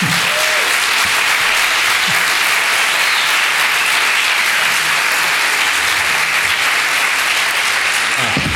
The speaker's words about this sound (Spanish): Y ahora sí, os pido un aplauso, pero más fuerte que el de antes.